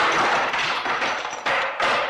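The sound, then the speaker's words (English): A Virgin Mary statue shattering as it is struck over and over in a film scene: several loud crashing impacts in quick succession, each a harsh burst of breaking, with no music beneath. “Coppola there and Walter Murch, the great sound designer, here on The Conversation, they amplify that because the score completely goes out at that point and we just get the sound of that statue shattering as he hits it repeatedly.”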